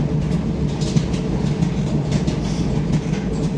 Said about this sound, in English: I like that dryer though.